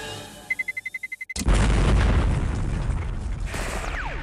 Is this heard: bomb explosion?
yes